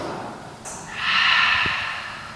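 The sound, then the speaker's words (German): A deep breath drawn in through the nose during a guided breathing exercise: a soft, airy, sustained inhale that swells and slowly fades, alone and fairly quiet. “Du nimmst ein paar tiefe Atemzüge durch die Nase ein und durch den Mund aus.”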